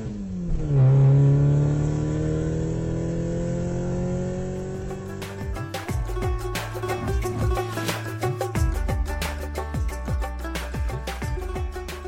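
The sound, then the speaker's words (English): A car engine starting and driving off on a Friday night in London. The engine note holds as a loud drone with shifting pitch over several seconds, with no voices. “I'll drive, Inspector.”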